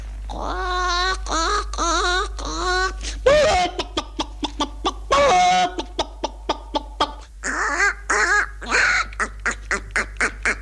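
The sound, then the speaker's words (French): A human voice imitates a hen clucking, with a run of short, rapid clucks broken by longer, nasal squawking calls that rise and fall in pitch. The calls are loud and uneven in rhythm, and no other voices can be heard. “Il y avait Madame de Rézy qui me demandait toujours « Faites-moi une poule, allez-y !»”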